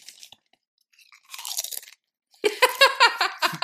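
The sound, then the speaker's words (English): Crunching of chips taken from a bag, arriving in a few loud, crisp bursts of bites and chewing separated by short pauses. “I got to bust out my bag of chips for this one. I'm going to let all the ASMR happen.”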